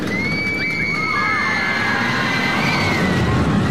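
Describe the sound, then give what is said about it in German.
A roller coaster ride at Magic Park Verden during a record-long continuous run: a loud, steady rumble with thin, high squealing tones that glide and waver throughout. “Achterbahn fahren, so schön, aber über 3 Stunden. Haben sie gemacht im Magic Park Verden am Wochenende und haben damit einen Rekord aufgestellt mit der längsten durchgehenden Achterbahnfahrt.”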